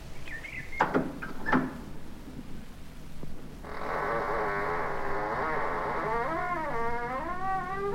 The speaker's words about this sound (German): Hoffentlich gelingt es mir, die schwere Tür zu öffnen.